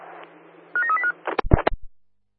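A telephone number is dialled: a few short electronic keypad beeps follow a faint hiss, then a quick run of sharp clicks and clatter before silence.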